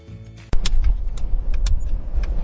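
Car interior noise while driving: a dense, low engine and road rumble starts suddenly after a quiet moment and then holds steady, with scattered light clicks and knocks on top.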